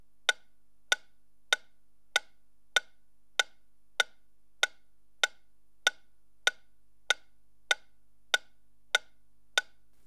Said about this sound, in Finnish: Nyt tikityksen pitäisi kuulua keskikaiuttimesta ja normaalilla stereolaitteistolla kaiuttimien välisestä keskipisteestä.